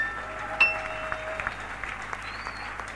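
A church audience applauds during a service, with scattered claps and one sharp burst standing out above a low, steady background.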